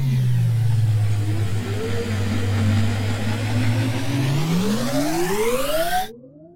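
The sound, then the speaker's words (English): An engine-revving sound effect stands in for a time machine ride. A low, loud engine drone holds steady for about three seconds, then climbs smoothly and continuously in pitch before cutting off abruptly. “I need you to buckle up. All right? Because we're going to have to ride the Hustle Share Time Machine.”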